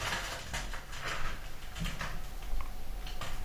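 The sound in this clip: A pet named Blackie using its toilet: soft scratching and pattering scuffs come in a few quiet, irregular bursts over a faint background.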